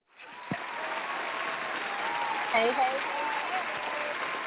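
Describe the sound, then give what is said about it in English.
An audience applauds a family of guests, a steady, even wash of clapping with a brief voice breaking through partway. “Yes, give a round of applause for the Robinsons.”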